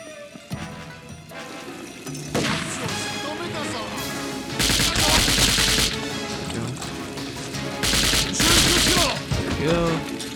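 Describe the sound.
Automatic gunfire rattles in a video game, with two long, loud bursts of rapid shots standing out over a busier bed of other game sounds. Quieter stretches of that background come before and between the bursts.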